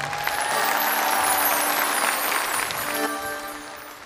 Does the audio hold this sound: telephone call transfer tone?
no